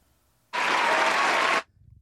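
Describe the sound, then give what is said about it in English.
Clapping applause bursts in suddenly and holds as a dense, loud, steady patter for about a second, then stops abruptly, with nothing else heard around it. “Gotta give him a clap.”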